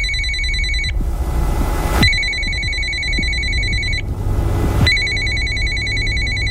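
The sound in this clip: A telephone rings on an outgoing call to a phone number. Loud, bright electronic ringing is broken by two short pauses and then resumes.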